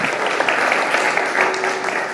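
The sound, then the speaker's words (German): Applause follows a music performance. Moderately loud, even clapping runs throughout at a steady density. “Das ist ein Applaus wert.”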